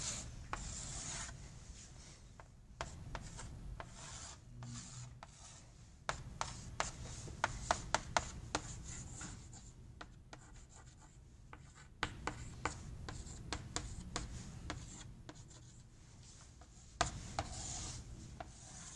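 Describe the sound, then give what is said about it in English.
Scratchy drawing strokes as someone sketches a diagram in color, many short rubbing and scraping marks that are quiet overall, with occasional sharper taps. “maybe I'll just do those in color so we can tell them apart when we sketch it.”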